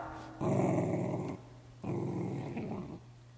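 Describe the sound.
A dachshund growls low, in two sustained rumbling bursts separated by a short pause, fairly faint and without voices.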